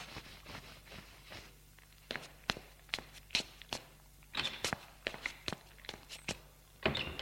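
Faint footsteps as someone leaves a room and goes downstairs: many soft, fairly regular treads over a low background, with a few heavier thumps mixed in.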